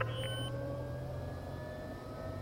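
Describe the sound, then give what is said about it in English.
Aircraft engine running as the plane starts to taxi, a steady low drone layered with thin, sustained whining tones that holds at an even level throughout. “We're ready to taxi. Buckle up and be ready. We're wheels up for home in 5.”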